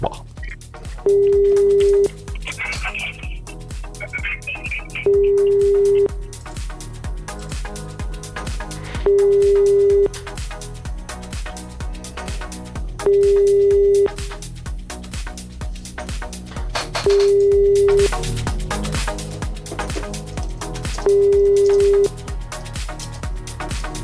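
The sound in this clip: A telephone line gives a repeating tone while a call goes unanswered: six even beeps, each about a second long, spaced regularly over a busy, steady background sound.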